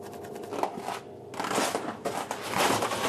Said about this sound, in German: Das ist genau ein Meter. Also wir schneiden hier ab.